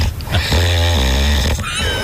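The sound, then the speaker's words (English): A man snores loudly, a rough, rattling, low-pitched snore drawn out over a couple of seconds, with no talk over it. “Oh, he's just warming up. I can't tell if it's a fart or a snore.”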